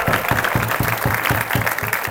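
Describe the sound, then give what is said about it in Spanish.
A church audience applauds during a worship service, with loud, continuous clapping that falls into a fast, even rhythm throughout. “Dale el aplauso a Cristo, por favor, esta noche.”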